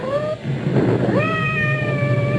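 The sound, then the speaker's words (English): A cat meows twice with no voices present: a short mid-pitched call, then a longer drawn-out meow that rises and holds steady, over a background hiss. “I hope that cat isn't trapped somewhere.”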